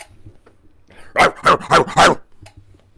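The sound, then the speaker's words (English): A person imitates a dog barking, giving four loud, gruff, evenly spaced bark sounds in a row, with quiet gaps before and after. “That was my Cujo sound. That was a dog, in case you didn't know a dog.”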